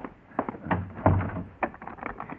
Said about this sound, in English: Come in and close the door and lock it.